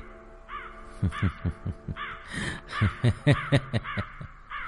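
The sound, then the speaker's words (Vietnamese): Shrill cawing bird shrieks at night, repeated in a quick irregular series over deep, rhythmic, throbbing thumps that pulse beneath the calls. “Ở bên ngoài vẫn vọng về tiếng chim kêu the thé giữa màn đêm”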